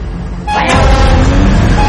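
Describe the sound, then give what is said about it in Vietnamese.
A truck passes by as a sound effect in an audio story: a loud, broad rumble swells in after a brief lead-in and holds steady to the end. “Chiếc xe tải chạy ngang qua khiến Tùng hoàn hồn trở lại.”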